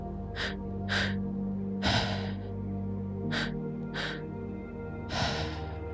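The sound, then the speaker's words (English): Audible breaths from a guided breathing exercise, with the exhale released as a rush of air. Several short, breathy bursts stand out over a steady low tonal hum, with no talking. “The second inhale is into the chest, heart space. And then the exhale is just a release. And it'll sound like this.”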